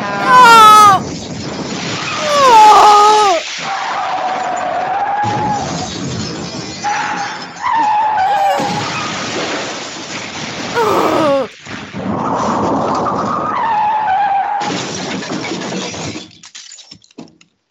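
Tyre squeals from a car skidding while being driven wildly with police in pursuit in a video game: several loud, wavering screeches come in bursts over continuous game noise, ending abruptly.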